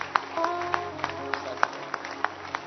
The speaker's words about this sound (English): Can you clap your hands? Is it possible? Say, Jesus, I thank you. Keep clapping.